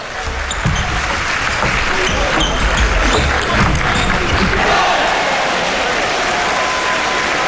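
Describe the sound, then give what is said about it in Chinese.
Table tennis ball bouncing during a serve at a professional match: a few quick, sharp taps in the first half, set over a loud, steady crowd murmur that continues throughout. “是格林的发球”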